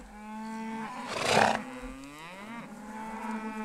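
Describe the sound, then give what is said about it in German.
Cattle mooing loudly: a long, low, sustained moo with rich harmonics swells into a louder, rougher bellow midway, then trails into more drawn-out lowing. “Die Rinder melden sich schon lautstark.”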